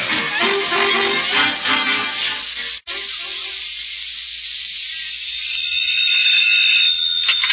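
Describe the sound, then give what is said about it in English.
A general alarm rings in a building, a loud, harsh continuous ring with one very brief break. A thin, high, steady tone comes through toward the end. “We've got a general alarm. Don't mind that.”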